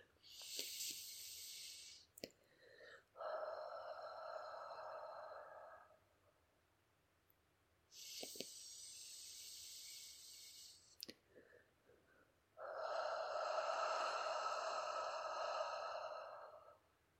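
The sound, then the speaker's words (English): Slow controlled breathing, drawn in through a blocked nose and let out through a slightly restricted mouth. Two full cycles, each a short hissing inhale followed by a longer, lower, steady breathy exhale, with small clicks in the pauses. “in through the nose and out through the mouth by slightly restricting the flow of air as it leaves my body. It's going to sound a little bit like this.”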